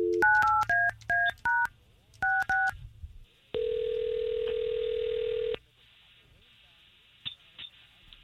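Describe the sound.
Touch-tone dialing places a telephone call during a morning radio show: a rapid series of short beeping tones in two quick bursts, then a long, steady ringback tone lasting about two seconds, followed by faint clicks.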